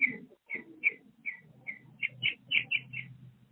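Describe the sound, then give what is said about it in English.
Birds chirp outside on a patio: about ten short, bright high-pitched chirps in an irregular series, growing slightly denser toward the end, over a faint low background hum. “Oh, we hear the birdies.”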